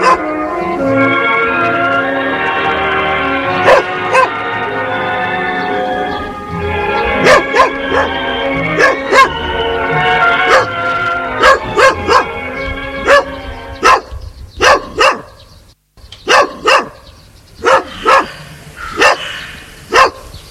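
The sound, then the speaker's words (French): A dog barks in many sharp, loud, separate yaps that grow more frequent in the second half, over a steady tonal background at the start. “Le chien adore ça.”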